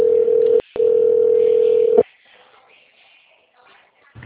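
A telephone line tone plays while a call to a company extension connects: a steady, low beep with one brief break, then an abrupt cutoff. Faint line noise and a click follow.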